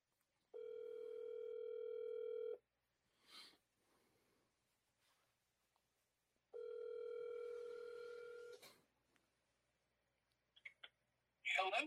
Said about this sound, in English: go ahead and dial him up.